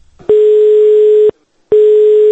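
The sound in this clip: Telephone ringback tone heard while placing a call: a loud, steady single-pitched tone lasting about one second, a brief silence, then the next tone starting. No voices.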